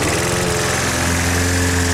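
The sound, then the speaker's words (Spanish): Steady engine drone of a lawn mower cutting grass, loud and unbroken throughout, with a rough, buzzing low hum. “¿Cansado de perder horas cortando el césped?”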